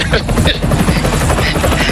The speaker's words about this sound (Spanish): voy a intentar hacer lo que pueda con el helicóptero